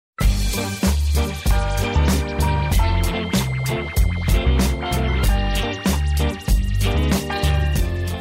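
A pop song plays with a bouncy, steady beat, punchy regular drum hits and a deep bass line. The music is loud and continuous, with brief dips between phrases and no talking over it.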